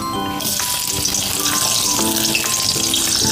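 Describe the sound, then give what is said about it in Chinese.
Scallion and ginger slices sizzle in hot oil in a wok: a loud, steady frying hiss starts after a brief moment and continues throughout, with a few faint clinks and scrapes of stirring. “开火热锅，倒入油。油热了，倒入葱姜片儿爆香，”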